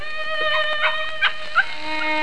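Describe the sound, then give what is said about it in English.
Pups yipping amid a household of dogs: three short, high yips spaced a fraction of a second apart over a steady, sustained tonal background. “Quiet, you pups, quiet. Down, down.”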